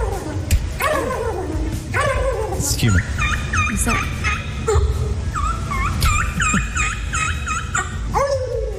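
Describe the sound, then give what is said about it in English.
People imitate turkeys in a turkey calling competition at the Iowa State Fair, with many repeated yelps and clucks over a busy crowd. Voices talk throughout. “Want to hear the top three of the turkey calling competition? Please. I think they're pretty good.”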